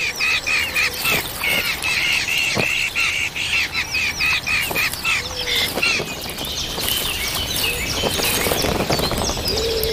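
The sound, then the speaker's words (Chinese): Hungry hawk chicks call from their nest in a busy stream of sharp chirps and squawks, with many calls overlapping and repeating without pause across ten seconds. “一窝饥饿的大尾鹰雏鸟需要父母全心全意照料，”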